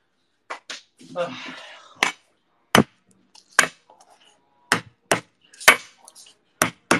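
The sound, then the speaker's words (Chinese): A kitchen knife smashes garlic while eggplant noodles and ham with eggs are being cooked. Many sharp, loud knocks sound in an uneven rhythm, with a short scrape of rustling near the start. “用刀拍一下蒜，就直接剥开了啊。”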